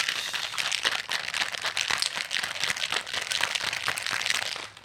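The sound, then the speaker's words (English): A sour cocktail with lemon juice being shaken in a shaker, a dense, fast, continuous rattling and clattering that stays loud throughout and cuts off abruptly at the end, with no talk. “the ASMR for this week, since we did not get to pop the, the cork, is going to be me shaking this shit up.”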